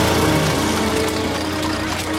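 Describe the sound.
A motor vehicle carrying four riders rumbles past as a loud, dense engine drone that stays steady throughout, with no voices.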